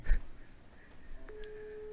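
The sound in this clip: Telephone call tones from a phone being dialed: a loud short burst at the start, a couple of brief tone blips, then a steady low call tone that holds to the end, with no talk.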